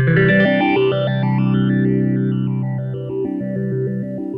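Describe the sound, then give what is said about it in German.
A sustained chord plays through a multi-step phaser pedal in step mode, its tone jumping through distinct stepped sweeps rather than a smooth swirl. The sound is loud, continuous and heavily processed. “I'm gonna go into step mode. Here we go.”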